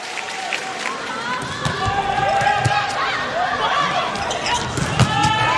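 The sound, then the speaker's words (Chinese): A volleyball is served by Thailand's setter to open a women's match against China, heard as a few sharp ball strikes above a steady, loud arena crowd din. “本场比赛是由泰国队的二传手三号波鹏来率先发球。”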